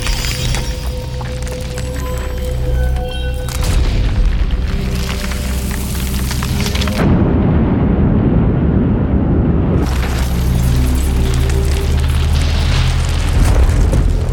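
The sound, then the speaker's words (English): Deep booms and roaring rumble as the planet Krypton falls apart, from the sound design of Superman: The Movie restored in 2000. The dense, loud wall of explosive noise runs throughout, with a heavier low crashing surge partway through. “a new sound design and sound edit pass was done during a restoration effort of Superman the movie back in the year 2000, and it's completely audible in this theatrical release that's available digitally today. You'll hear a lot of that work here as Krypton starts falling apart.”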